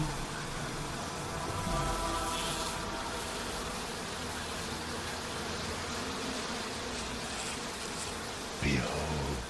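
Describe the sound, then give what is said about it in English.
Bees buzzing in a continuous, fairly faint drone that holds steady throughout, with a slight swell near the end. “And then there will be bees.”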